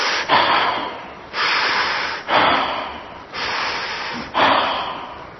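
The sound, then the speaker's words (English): Long, breathy exhalations as a person lets go of held breath, forming a steady series of roughly second-long rushes of air separated by brief pauses. “I'm letting go of the breath, and I'm letting go of this place I was holding on to.”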